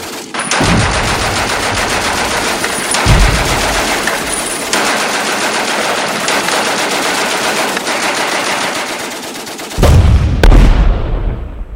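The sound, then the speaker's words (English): Battle effect of machine guns and artillery, the Belgian army opening fire on troops crossing the River Meuse on pontoons in August 1914: loud, sustained rattling gunfire broken by a few deep booms, with no voices. “As they attempted to cross on pontoons from the north, east, and south positions, the Belgian army opened fire.”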